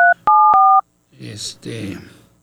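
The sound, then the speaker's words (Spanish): Telephone keypad dialing tones: three short, clear electronic beeps in quick succession, followed by a person talking. “deme la oportunidad de marcarle, a ver si tengo el éxito de comunicarme con él”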